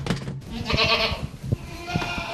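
Goats bleat in a stable: a few loud, overlapping, nasal harmonic cries in quick succession with no talk.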